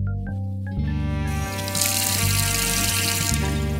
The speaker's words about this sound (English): It's evening. Harry is at home in his flat, in the kitchen, doing the washing up with a bar of soap.